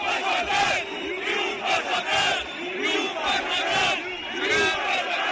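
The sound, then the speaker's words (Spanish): A protest crowd at a rally outside Ferraz chants and shouts in repeated surging bursts, a loud rhythmic roar of many voices that rises and falls again and again. “Bueno, empezamos, Herrera, el ruido, la tensión. En redes, un montón de imágenes desde dentro de esa concentración de ayer en Ferraz.”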